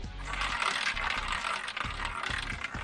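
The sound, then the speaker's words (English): A roulette wheel numbered 1 to 9 spins with a steady mechanical ratcheting rattle, its dense clicking holding at an even level, with a few heavier ticks toward the end. “Okay, here we go. I'm going to spin that wheel.”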